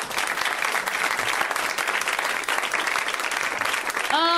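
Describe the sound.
An audience applauds for comedian Rhea Butcher with dense, even clapping throughout. A voice begins just at the very end.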